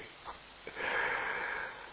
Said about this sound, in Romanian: scuze-mă, nu știu de ce casc atâta